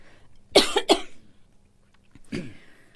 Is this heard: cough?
yes